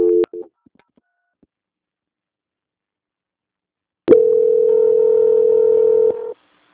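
Telephone tones during a call transfer: a short tone at the start, a few seconds of silence, then one loud, steady, mid-pitched tone lasting about two seconds before cutting off.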